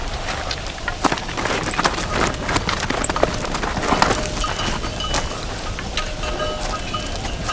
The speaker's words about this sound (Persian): قافله‌ای به این سو می‌آید.